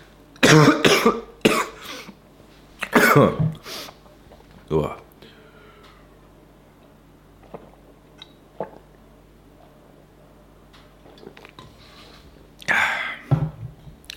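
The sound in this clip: Coughing fits after something went down the throat: several harsh, loud bursts in the first few seconds, a long quieter stretch with faint breathy sounds, then another forceful cough near the end.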